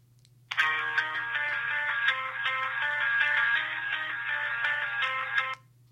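Cell phone ringtone played into a microphone, a melodic song opening that starts abruptly and runs about five seconds with bright, steady notes over a constant low hum, then cuts off; no voices.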